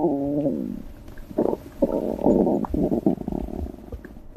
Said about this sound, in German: Unser Innenleben ist ganz schön laut, wenn man genau hinhört. Es gluckst und gurgelt. Selbst wenn wir ruhen, ist das Verdauungssystem ständig am Arbeiten.